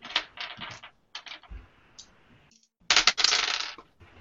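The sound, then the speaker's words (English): Percentile dice rolled during a tabletop role-playing game clatter in several quick bursts of hard clicks and rattles, ending with a louder, longer rattle; nobody speaks. “You can roll percentile dice.”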